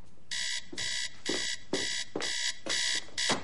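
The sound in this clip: An electronic alarm rings in a steady run of about seven bright, buzzing beeps, evenly spaced and of equal loudness, with no voices.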